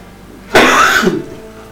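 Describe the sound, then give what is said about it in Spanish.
A person gives one harsh, dry cough that bursts out suddenly, lasts about half a second and then fades. The background is quiet apart from it. “tengo una tos reseca horrible”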